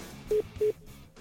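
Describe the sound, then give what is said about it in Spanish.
Two short, steady mid-pitched beeps signal an incoming phone call, evenly spaced and faint, with no talk over them. “Ya se enojó. Me está marcando.”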